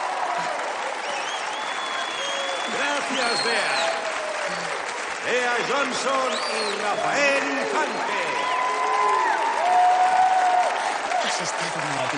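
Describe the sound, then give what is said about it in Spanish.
An audience applauds and cheers after a dance performance, with continuous clapping and excited shouting voices over it that swell slightly toward the end. “la abraza mientras el público aplaude y se levanta entusiasta”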